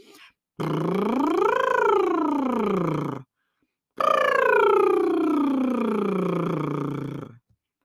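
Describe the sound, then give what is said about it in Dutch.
A lip trill on a glide tone as a voice exercise: two sustained buzzing trills, the first sliding up and back down in pitch, the second gliding steadily downward. “Het liptrillen kun je wel op verschillende klanken doen. Hè? Dus je kunt een mooie eh, glijtoon maken of je gaat het op eh, een liedje wordt een beetje lastig. Maar een glijtoon doe ik even voor.”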